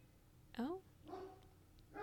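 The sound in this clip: A dog barks at home, a few short, faint, yelping barks spaced apart, each with a strong tonal ring, over a quiet background hum.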